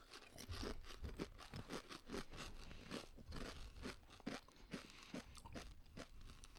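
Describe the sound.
Jalapeño-flavoured chips being bitten and chewed make many crisp, fairly faint crunches at an uneven, steady pace, with grinding and crackling between the sharper snaps.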